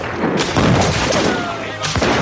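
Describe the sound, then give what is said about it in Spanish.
Gunfire sound effect of Spanish arquebusiers firing in a 1571 naval battle: a few sharp, crackling bursts stand out over a continuous rumbling, noisy background. “Los arcabuceros españoles apuntaron bien y comenzaron a disparar.”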